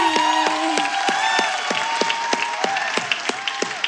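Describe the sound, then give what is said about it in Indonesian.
Audience applause for a young singer at a children's singing competition: many quick, evenly spaced claps keep a steady rhythm over a sustained musical tone. “Tolong tepuk tangan dong buat dia.”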